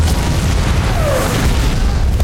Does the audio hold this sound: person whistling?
no

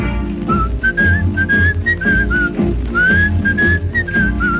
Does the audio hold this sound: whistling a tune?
yes

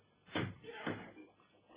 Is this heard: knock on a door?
yes

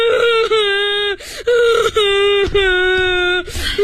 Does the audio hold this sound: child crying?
yes

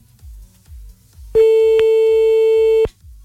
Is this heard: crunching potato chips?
no

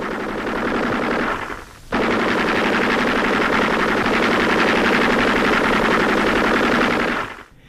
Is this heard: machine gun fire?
yes

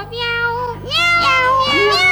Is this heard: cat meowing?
yes

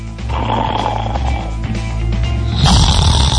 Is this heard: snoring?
yes

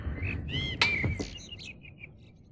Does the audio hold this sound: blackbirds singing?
yes

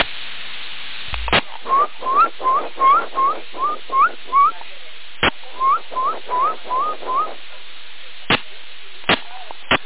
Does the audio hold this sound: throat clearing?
no

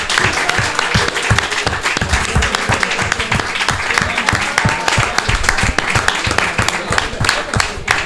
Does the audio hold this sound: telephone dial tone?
no

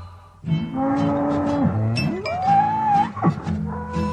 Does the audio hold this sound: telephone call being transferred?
no

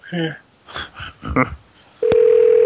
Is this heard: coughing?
no

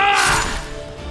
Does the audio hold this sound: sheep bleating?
no

